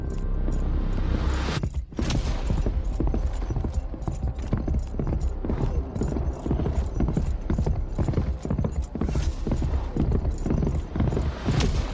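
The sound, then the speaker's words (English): A horse galloping, with rapid, steady hoofbeats drumming continuously at a fast pace from start to finish. “he kicked Stormor into a gallop, falling in behind Kriya. Cormac and Orin trailing close behind.”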